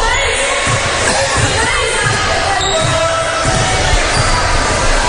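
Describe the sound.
A basketball is dribbled during a girls' basketball game involving Coldwater, with a steady run of low bouncing thuds under constant loud crowd noise.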